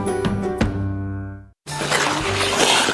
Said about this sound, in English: It's the sound of a skater dropping her phone and smashing it on the ice.